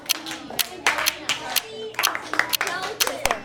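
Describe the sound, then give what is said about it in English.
Hands clap out the syllable rhythm of names in a group rhythm exercise, many sharp, uneven claps in short clusters, with children's voices talking alongside. “Turn and tell your neighbor the rhythm to your name. Don't forget to clap.”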